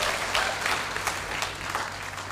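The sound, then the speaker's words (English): Audience applause during a church service: a steady, moderate wash of many hands clapping, even in level from start to finish. “So come on, give the Lord a huge round of applause.”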